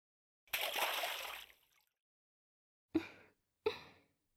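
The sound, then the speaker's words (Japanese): Water sloshing in a warm in-room bathtub as two people get in: a longer splashing surge, a pause, then two short, sharp sloshes, with no talk. “温かいお湯が体を流れていくのがとっても気持ちいいですわ。それでは一緒に湯船に入りましょう。”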